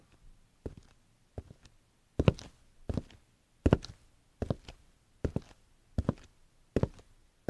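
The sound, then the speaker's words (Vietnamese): Soft footsteps walk slowly at night toward a garden, about ten faint, evenly spaced muffled steps with quiet between them. “Tiếng bước chân từ từ hướng ra ngoài vườn.”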